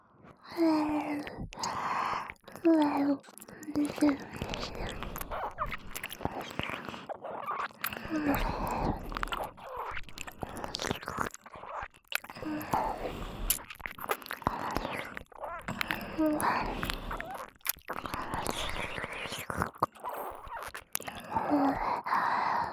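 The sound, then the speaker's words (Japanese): Licking and sucking on a sweet candy, with continuous wet slurping and smacking mouth sounds and occasional breathy gasps, steady throughout. “私たちはこのままご主人様の、いいえ、甘いキャンディーをしばらく舐めていますので。”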